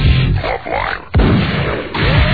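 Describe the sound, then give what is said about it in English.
Shooting gallery gunfire sound effect: loud, dense bursts of bangs and pops run without a break, with sharp fresh onsets near the middle and again toward the end. “Shooting gallery, now.”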